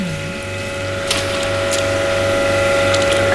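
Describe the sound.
A fish processing machine is being started up and run, a steady mechanical hum with whirring tones and a few sharp clicks and rattles over it, fairly loud and without voices.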